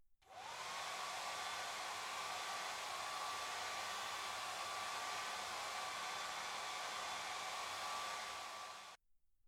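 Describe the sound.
A hair dryer dries hair after a head spa, starting with a rising whine and then blowing a loud, even, airy drone for about nine seconds before cutting off abruptly.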